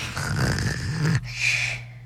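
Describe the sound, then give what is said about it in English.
A child imitates snoring with a voice: one rough, low snoring breath of about a second, then a breathy, hissing exhale, fairly faint overall. “that was him pretending to snore because he was bored with that entire thing”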